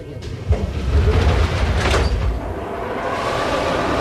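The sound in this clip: Prague metro line B train on a test ride: a sliding-door whoosh and clunk set against the steady low rumble of the carriage.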